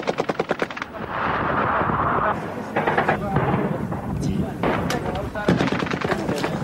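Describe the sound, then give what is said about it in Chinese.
Gunfire and shelling on a battlefield. A rapid burst of machine-gun fire opens, followed by dense, loud, continuous rattling shots and heavy booms that carry on throughout. “并在正在炮击当中，媒体记者在这边躲掩蔽，情势相当的危急。”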